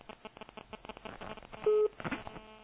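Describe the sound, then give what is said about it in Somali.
A caller's telephone line cutting off mid-call, with thin, narrow-band crackle and clicking followed by a single short steady tone, then a brief garbled burst before the line fades. “dhegeystahaasna qadka telefoonka ayaa ka go-ay”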